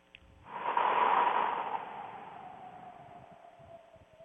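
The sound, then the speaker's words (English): A group takes one deep cleansing breath together during a meditation, a single long, airy breath that swells quickly and then slowly fades. “So let's take a deep cleansing breath together.”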